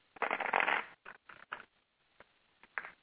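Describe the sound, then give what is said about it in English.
Tarot cards shuffled for a card reading: a dense, rustling riffle lasting under a second, then several short, dry flicks and taps. Fairly faint, with no talk. “Hold on. I'm clearing the cards for you here.”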